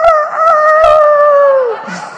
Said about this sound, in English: Got the rooster crow working in here.